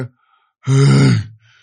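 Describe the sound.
A voice imitates a man's heavy, tired breathing as he stands resting, heard as one loud, drawn-out, voiced sighing exhale.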